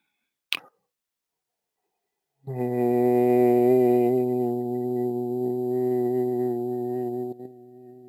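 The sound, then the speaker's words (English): After a short click and a pause of silence, a group chants a sustained om together: a low, steady, richly harmonic drone held for about five seconds before cutting off. “So we will sound an om to confirm our solidarity together in the work.”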